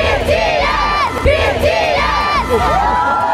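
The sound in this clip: Thousands of fans cheer, shriek and whoop outside a stadium in Munich hours before a concert, their high overlapping voices forming a loud, continuous roar with rising and falling shouts.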